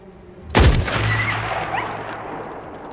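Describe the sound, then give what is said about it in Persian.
A single loud gunshot from a fired gun, a sharp crack followed by a long rumbling decay that fades over the next two seconds, with no voices. “وقتی آماده شدی انگشتتو بذار روی ماشه. همینه. حالا نفستو بده بیرون و شلیک کن.”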